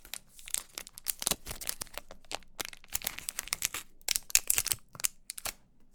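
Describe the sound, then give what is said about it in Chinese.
A package being torn open by hand, a rapid series of crinkly, crackling plastic tears with many sharp, uneven bursts of noise and brief pauses between them. “嗯，那你看着我，像这样撕开，你看。”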